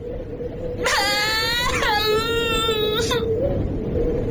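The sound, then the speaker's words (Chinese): A small child suddenly bursts into loud crying: a sustained high wailing howl with a brief catch partway through, lasting about two seconds before it cuts off, over a steady low background hum. “黑子忽然哇的一声哭起来，高君曼赶紧捂住孩子的嘴。”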